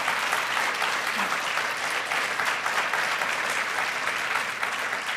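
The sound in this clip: Audience applause welcoming two speakers onto the stage for an evening conversation event: continuous, even clapping from a crowd that holds steady for about five seconds.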